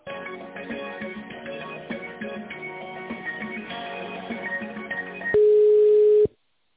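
A telephone line carries tinny, music-like hold sound for several seconds while a call is being transferred. It gives way to a single loud, steady, mid-pitched tone that lasts about a second and cuts off abruptly.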